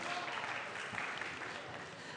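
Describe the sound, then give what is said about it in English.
A church audience applauding students for finishing their exams: a soft, steady round of clapping from many hands that stays quiet and even throughout. “Let's just give them a little clap, shall we? Well done, students.”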